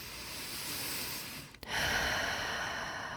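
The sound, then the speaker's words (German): Deep breathing during a guided meditation: a long, loud, airy inhale of about one and a half seconds, a brief pause, then a long, steady breath out, with no talk. “Und dann atme gerne 2-3 Mal richtig tief ein und tief aus.”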